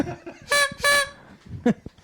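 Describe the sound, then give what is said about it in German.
A toy party horn is blown in two buzzy, reedy toots in quick succession, then one shorter blip. “Ich habe euch jedem eine Tröte mitgebracht.”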